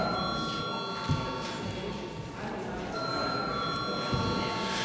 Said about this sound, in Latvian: Paldies, lūdzu zvanu.